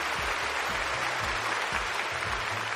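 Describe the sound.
A small audience gives applause with steady, dense clapping that stays even throughout and is fairly soft.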